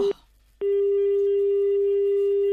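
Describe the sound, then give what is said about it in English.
A telephone dial tone on a line used to call a radio station: a brief tone blips and cuts off, and after a short silence a loud, unbroken hum returns and holds steady to the end, with no voices. “Just dial that number for me, please”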